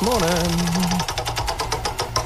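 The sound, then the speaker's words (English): A game-selection wheel being spun, giving many rapid, evenly spaced clicking ticks that run steadily to the end over a low hum. “He's going to spin the wheel, find out what game we are playing on the Wheel of Games.”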